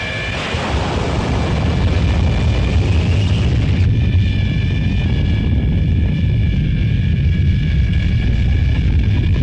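Spacecraft rocket engines fire after a countdown with a loud, continuous, broad roar and deep rumble. Thin, high, whining tones join in partway through while the roar holds steady.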